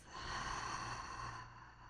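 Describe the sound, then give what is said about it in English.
Slow, deep breath drawn in through the nose during a belly-breathing exercise: one soft, airy, continuous breath that holds steady for nearly the whole clip, with no talk. “we'll take a nice deep breath in through the nose, sending your breath to your belly, letting it travel back up your chest, and releasing with a full exhale out of your mouth.”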